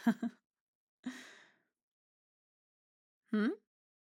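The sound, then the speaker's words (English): Breathy yawning sounds: an airy exhale, then after a pause a short voiced sound, separated by quiet gaps. “Did you just yawn? Another yawn?”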